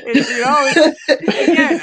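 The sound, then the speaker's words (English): In a short soundbite, a woman savors a cold drink with breathy, voiced sighs and chuckle-like vocal sounds. They come in two bursts separated by a brief gap, fairly loud and close. “That was a girl parked enjoying a nice cold drink.”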